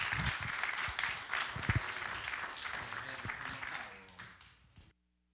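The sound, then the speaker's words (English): Congregation applause welcoming a preacher back to a church in Cleveland, Tennessee: a dense, steady clatter of clapping that holds for several seconds, then thins and stops abruptly. “let's give him a big, big hand, welcoming him back to Cleveland, Tennessee.”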